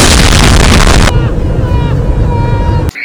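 A bomb explosion from the anime film Akira hits as a loud, broad blast, then settles into a sustained roaring rumble that cuts off abruptly just before the end.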